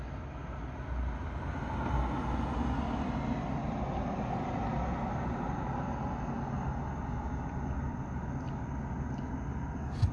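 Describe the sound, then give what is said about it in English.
A car drives past a house, giving a faint, steady low rumble of road and engine noise that swells slightly and lingers for around ten seconds without a clear peak. “God, everybody just wants to drive all around here.”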